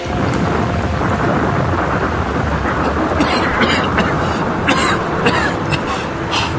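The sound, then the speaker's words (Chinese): Heavy rain with thunder, a dense, loud, unbroken wash of falling water with deep rumbling underneath that holds steady throughout. “是雨滴吗？真的下雨了吗？我的头发衣服都淋湿了。”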